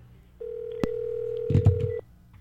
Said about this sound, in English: Here we go. I'm dialing fast now.